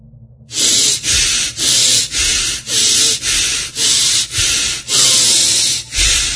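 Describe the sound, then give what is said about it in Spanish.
Forceful breathing through the nose in a connected-breath exercise, inhaling and exhaling without pauses; loud, rough, airy bursts repeat many times in a steady rhythm, with no talk. “La respiración va de esta manera, yo voy a hacer 5 nada más y luego ustedes intenten hacer 20. Entonces va de esta manera, sacamos todo el aire”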